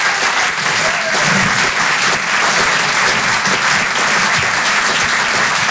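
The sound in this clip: Audience applause at a French comedy club, a thick and steady roar of clapping that holds at a loud level for several seconds.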